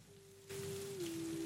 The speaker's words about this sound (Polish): Deszcz.